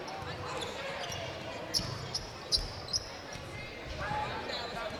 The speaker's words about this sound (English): Between the legs dribble. Oakland kind of holding the ball here.